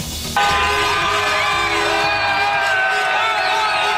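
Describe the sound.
Football fans in Plaza de España, Mallorca, celebrate Spain's World Cup final win over Argentina. Long, loud horn blasts sound over whoops and a continuous cheering crowd.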